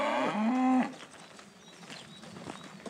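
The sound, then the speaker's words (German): A single loud, drawn-out moo from cattle on a farm with roaming herds at a city's edge fills the first second, then gives way to a quiet, low outdoor background. “Am Stadtrand Hamburgs betreiben sie viel Aufwand bei ihrer Rinderhaltung. Mit wandernden Tieren.”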